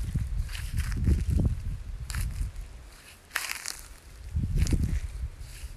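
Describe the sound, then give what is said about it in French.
Crunching footsteps of someone walking outdoors in countryside among fallen grapes, several gritty steps in loose clusters with short pauses between them, fairly faint and with no talk. “Vous entendez peut-être encore mes pas, c'est parce que je marche toujours à la recherche d'un raisin tombé”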